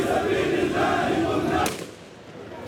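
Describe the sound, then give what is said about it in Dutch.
A gunshot is fired into the air at a Palestinian funeral procession by masked men carrying automatic weapons. One sharp crack cuts through loud crowd shouting and chanting, and the crowd noise then drops to a lower murmur. “Ja, er wordt in de lucht geschoten. Een beetje angstaanjagend ziet het er wel uit. Boom, nog een keer.”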